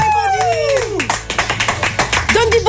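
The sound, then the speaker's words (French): Audience applause starts as a voice with a falling pitch fades, then continues as many crisp, fairly rhythmic hand claps, with a voice returning near the end. “Louis d'énergie, messieurs, dames, applaudissements.”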